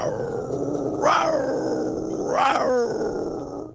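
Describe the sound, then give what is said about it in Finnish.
Lynx growling: a low, rough growl runs throughout, broken by two loud yowls that rise and fall in pitch. The second yowl ends in a stuttering, rattling break. “Tässä on teille kunnon Ilves.”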